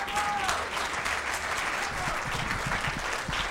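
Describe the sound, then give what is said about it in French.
An audience applauds musicians after a Gwoka performance, with dense, continuous clapping from many hands holding a steady level for the whole stretch. “Bon, applaudissez, applaudissez les musiciens.”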